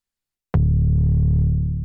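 Omnisphere synth bass deliberately clipped and distorted with plugins, one loud, gritty note that hits sharply and then holds steady, with only a slight fade.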